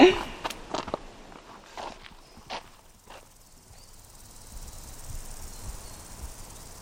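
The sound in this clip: Faint footsteps of people walking down through fields toward a gentle valley: a few soft, uneven steps early on, then quiet outdoor background.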